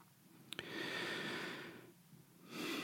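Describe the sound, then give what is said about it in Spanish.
A deep breath drawn in, a long, steady airy inhale lasting over a second that fades away, followed by a pause and the start of another breath, with no talk. “Respiro profundo. Pienso mientras tomo aire”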